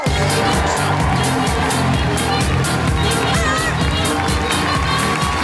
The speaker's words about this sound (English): Put your hands together and make incredible woohooing noises for the wonderful Susie Ruffle.